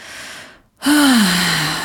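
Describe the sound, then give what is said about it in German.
A deep breath drawn into the lower belly and released: a soft breathy inhale, a brief silent pause, then a louder exhale with a voiced sigh whose pitch sinks slightly as it trails off. “richtig tiefe Atemzüge in den unteren Bauch ein und wieder ausnehmen”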